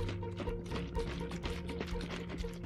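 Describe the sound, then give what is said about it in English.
Water pouring in a faint, steady, trickling stream that runs unbroken for about three seconds, with no voices. “So, heard some water, right?”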